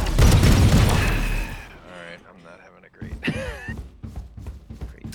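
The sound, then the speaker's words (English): A swarm grenade goes off in a video game with a loud, booming blast that fades over a second or two, followed by scattered sharp bursts and pops. “Placing swarm grenade. Okay. Time to hunt. Swarm grenade out. Grenade!”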